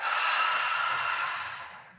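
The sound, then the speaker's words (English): A long, deep breath out, heard as a steady breathy rush of air that holds even at first and then slowly fades toward the end, with nothing else heard. “Let's breathe one last time. Big breath in. Let it out.”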